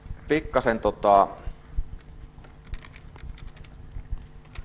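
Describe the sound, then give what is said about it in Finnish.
Typing code on a computer keyboard: faint, rapid, irregular clicks that continue after a brief burst of speech at the start. “pikkasen kirjoittamista, niin mä kirjoitan sen testin siihen jälkeenpäin sitten”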